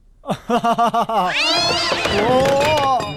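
Cat meowing as it lies on the ground and is stepped on: a quick run of five short pulsing calls leads into a long, wavering, loud yowl.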